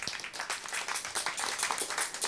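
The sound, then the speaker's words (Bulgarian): Audience applause at a jazz festival for the event's organizers, a brief dense patter of many hands clapping at once, fairly soft and even throughout. “Аплодисменти за тях!”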